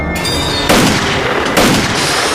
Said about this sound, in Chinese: 狙击手， 把那两个杂种给我打掉。